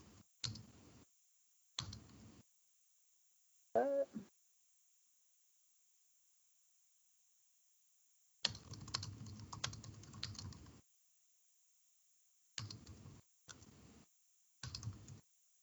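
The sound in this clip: Typing a message on a computer keyboard: several faint bursts of rapid key clicks separated by silent gaps, with one longer stretch of steady typing in the middle.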